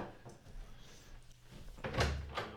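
A locked door is opened after a knock. The sound is faint and quiet, with two soft clunks near the end over a low background.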